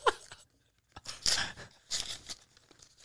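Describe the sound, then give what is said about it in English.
A paper envelope ripped open by hand: faint, quiet tearing and crinkling, with a few short rips in separate bursts and soft rustling between them, alone without talk. “I'm sorry for ripping the envelope.”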